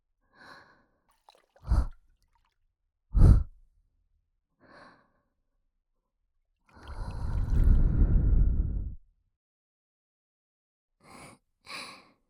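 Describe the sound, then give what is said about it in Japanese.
Soft breaths blown directly into the ear come as a few short, airy puffs, then one longer, steady exhale in the middle, and then faint puffs near the end, with quiet gaps between them and no voices. “耳の中にコショコショってなるように息を吹きかけてみました。”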